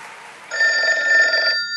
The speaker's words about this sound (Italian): Telefonata, cioè.